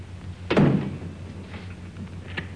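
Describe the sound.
A door kicked shut lands as one heavy, dull thud with a short rumbling decay. A fainter, sharp click follows near the end over a low, steady background hum.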